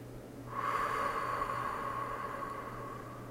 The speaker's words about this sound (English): Okay, nice deep breath. Close your eyes if you can.